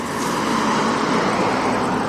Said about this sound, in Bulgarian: Да, интензивният трафик и в този момент е факт. В посока България най-вече и в този час, за голямо съжаление на пътуващите, граничния плац на Капитан Андреево е пълен с коли